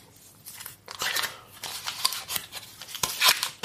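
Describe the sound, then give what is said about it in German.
Crinkly rustling of butter being unwrapped from its packaging while making a dough with flour, baking powder, salt and egg; many irregular crackling bursts come in quick succession, with no talking. “Ich packe gerade meine Butter aus.”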